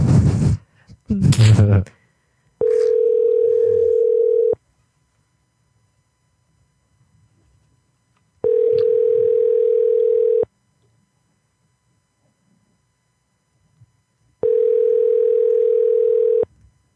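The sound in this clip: Telephone dial tone heard while placing a prank call: three steady humming tones of about two seconds each, separated by long silences, with brief talk at the start.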